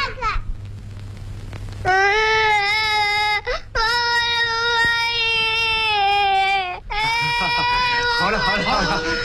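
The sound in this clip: A young child crying in loud, high-pitched wailing bursts, three long sustained cries separated by brief catches of breath, with other voices speaking near the end.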